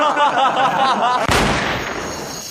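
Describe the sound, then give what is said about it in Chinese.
A single sharp gunshot from a Browning pistol firing accidentally: a loud, sudden burst with a trailing decay, right after a man's speech. “这么好的枪还能走火啊？”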